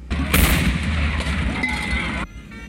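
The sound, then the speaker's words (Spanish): A single loud cannon shot from an artillery piece firing a salute at a military honours ceremony: a sharp, heavy boom followed by a long, rumbling roll that stops abruptly. “15 salva de cañón por una pieza de artillería”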